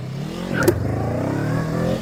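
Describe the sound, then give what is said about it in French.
A stunt motorcycle, a CB500, in a video game, its rear wheel spinning while the engine revs hard. A loud, steady, buzzing engine drone holds throughout, with a brief click partway through. “Mais là, la moto, en fait, elle patine de ouf.”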